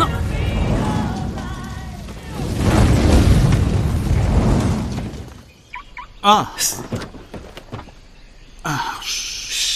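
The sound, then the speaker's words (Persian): An explosion in a tense dramatic scene: a loud, sustained roar heavy in low rumble that lasts about five seconds, then gives way to quieter passages with short vocal sounds and a few sharp bursts. “این انفجار به خاطر چیه؟”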